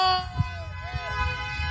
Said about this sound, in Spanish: Gracias, mi Cepi, aquí está la pitadera de toda la raza que quiere la calca de banda.